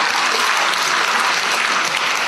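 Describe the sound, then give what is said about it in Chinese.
A church audience applauds during a sermon with dense, steady clapping from many hands at an even loudness throughout. “我不晓得你们鼓掌是赞同这个话，对不对？”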